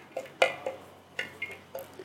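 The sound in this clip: Light clinks and scrapes of a utensil as homemade cheese cream is put into a square container: several short, quiet ticks spaced irregularly, with no talk.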